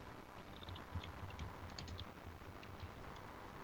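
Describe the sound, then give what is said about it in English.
Faint typing on a computer keyboard: soft, irregular key clicks tap along over a low background hiss, with no voices. “As I type a little bit”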